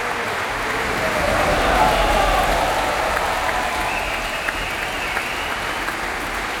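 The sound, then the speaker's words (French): An enthusiastic audience applauds the Orchestre National de France as the musicians take their bows at the Opéra Berlioz. Dense, steady clapping continues throughout, swelling slightly early on, with a few sharper individual claps standing out near the end. “Thomas Gougaïs, toujours sur scène, aux côtés des musiciens, des musiciennes de l'Orchestre National de France, qui saluent devant ce public très enthousiaste. Vous l'entendez ici à l'Opéra Berlioz.”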